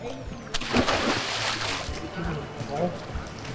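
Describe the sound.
Splashing and sloshing water as a swimmer wearing a 5 kg weight belt is pushed under during resistance training, with a continuous churning wash and voices talking over it.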